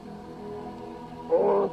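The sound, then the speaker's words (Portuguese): A very large dog gives a deep, rumbling growl. It holds low and steady, then swells into a louder, rougher burst near the end. No voices are heard. “Ou é um urso polar, ou é o maior cachorro que eu já vi. É um cachorro, pai.”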